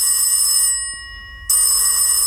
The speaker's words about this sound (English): Now, if my phone in my hotel room rang like that, I tell you, I wouldn't be answering it.